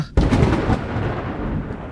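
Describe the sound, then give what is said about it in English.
Floor-shaking thunder following a lightning flash bursts in with a sudden loud crack, then rolls on as a deep, broad rumble that slowly eases off. “There was a brilliant flash of lightning, followed by a floor-shaking thunder.”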